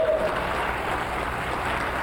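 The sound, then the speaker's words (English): An audience claps hands together in a steady, dense wash of applause that holds at an even level throughout, with no separate voices. “Give him a clap offering.”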